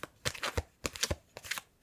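A deck of playing cards is shuffled, giving a few quick, quiet bursts of riffling and snapping card edges with short pauses between them.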